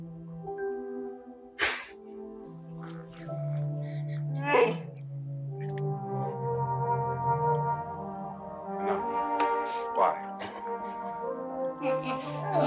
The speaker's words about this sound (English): Probably can't take all the growling.